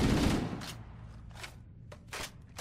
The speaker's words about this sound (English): Another one of the guns you're probably picking up is the assault rifle.